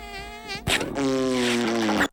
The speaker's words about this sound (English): And it's time for some farting.